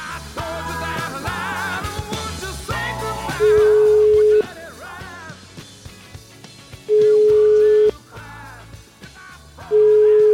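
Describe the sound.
Ringback tone of an outgoing telephone call: three steady, even beeps, each about a second long, separated by longer pauses, sounding over music, with the last beep cut off at the end.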